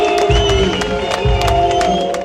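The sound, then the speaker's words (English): A crowd boos a chancellor on stage at a political event in Jena, Thuringia, over polite applause. Low, drawn-out boos surge twice over a steady bed of crowd noise and clapping. “Boos cut through a polite applause for Chancellor Olaf Scholz.”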